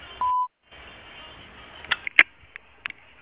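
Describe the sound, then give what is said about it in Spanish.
A single short voicemail beep, a steady pure tone lasting about a quarter second. Quiet line hiss and a few faint clicks follow. “Deja tu mensaje después del tono.”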